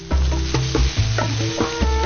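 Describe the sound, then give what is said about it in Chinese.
Milk fan cheese roasts flat on a stove over low heat, held by a wooden skewer and pressed with a wooden stick, giving a continuous frying sizzle with irregular soft crackles and scraping taps, and no voices. “平铺在炉子上，小火慢烤，木签固定一端，木棒按压，使乳扇均匀受热，逐渐软化。”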